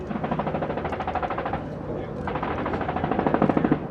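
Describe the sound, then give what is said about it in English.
Rapid automatic small-arms fire rattles in the distance during a military exercise with troops on the ground. Two long runs of fast, evenly spaced shots are split by a brief pause. “Blackhawks came in a while ago and dropped off troops, but are now on the ground, and we can hear small arms fire in the distance and puffs of smoke.”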